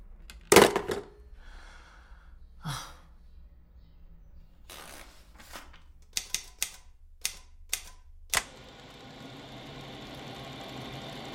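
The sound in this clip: A typewriter taps out a report in sparse, irregular clacks, with a loud early strike and a quick cluster of sharp keystrokes later on, each crisp and separate against a quiet background.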